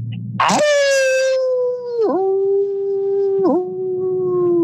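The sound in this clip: A man's voice imitates a wolf-like howl: a short rough burst, then one long, steady, sustained wail with two brief wavering dips in pitch, loud and alone.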